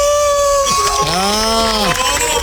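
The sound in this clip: A man's voice imitates a wolf howl, a loud sustained harmonic tone that swoops up, holds, then falls away at the end, with a steady voiced note before it.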